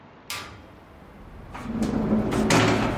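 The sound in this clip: An unlocked door on a rooftop is opened: a few sharp clicks and knocks, then a low rising scrape and rumble as it swings, all fairly faint.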